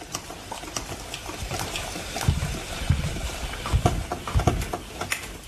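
Steady hissing and gurgling of a coffee machine running a descaling cycle, with a heaped teaspoon of citric acid dissolved in the water tank. Watery bubbling and soft popping continue throughout at a fairly even level.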